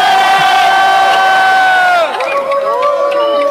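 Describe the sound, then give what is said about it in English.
A crowd in New York City, gathered at 23rd Street and 5th Avenue, cheers and shouts loudly. A sustained, tonal cheer holds for about two seconds, then breaks into wavering, overlapping voices. “We are looking at an image of New York City. People are holding up signs, welcome from New York, we love Dublin. A crowd has gathered there on 23rd Street and 5th Avenue.”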